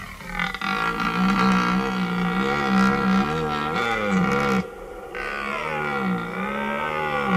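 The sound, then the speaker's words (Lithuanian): Red deer stags roaring during the rut: deep, harmonic bellows in long, wavering calls, loud and alone, with a brief break near the end before the calling resumes. “Taip mus sveikina taurieji elniai. Iš tikro dabar jų pasaulyje pats didysis šėlsmas rujos įkarštis.”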